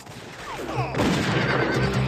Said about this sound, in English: The regulators and men from the shack shoot at each other.